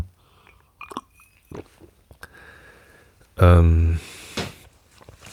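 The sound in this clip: Coffee being sipped: a few small clicks and soft mouth noises, then a brief, much louder burst of sipping and swallowing near the end.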